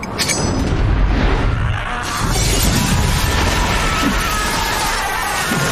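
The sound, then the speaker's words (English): A loud smash as a vampire flies through a one-way glass mirror. A heavy crash of shattering glass hits at the start, followed by several seconds of dense, rumbling debris noise that stays loud throughout. “A vampire flies through the one-way mirror, ashes midair.”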